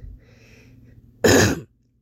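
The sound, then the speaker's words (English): A single short, harsh throat clearing from a man. It starts abruptly, is fairly loud, and stops after about half a second, following a stretch of near quiet. “He clears his throat again.”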